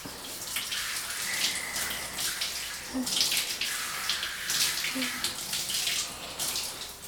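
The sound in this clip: Water splashes and runs off skin as a hand pushes it away during gentle washing. It makes a steady, broad rushing sound with soft splashy bursts throughout.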